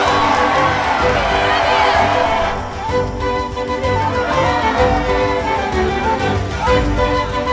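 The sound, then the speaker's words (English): A crowd cheers loudly in a film scene, a continuous roar of shouts and whoops that dips briefly partway through, then swells again and carries on. “They're cheering for you. They're cheering for all of us.”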